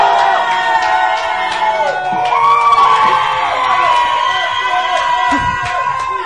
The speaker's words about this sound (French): De Thonon-les-Bains où nous sommes en direct ce soir, public, faites du bruit! Ouais!